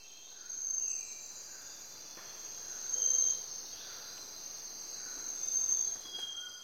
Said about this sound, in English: This is the sound of a tropical forest in Ecuador.